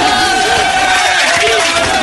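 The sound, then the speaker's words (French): An audience at a live radio concert gives a loud standing ovation. The cheering and shouting form a continuous roar with a steady tone running beneath it. “Bravo. Bravo. Debout, debout, debout. Standing ovation, debout.”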